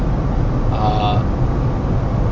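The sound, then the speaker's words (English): Steady whooshing ventilation fan noise inside a moving Chevy Spark, a broad, even hiss with a low rumble that holds at a constant level throughout. “I should have turned the fan down. Is that better? That might be less noise.”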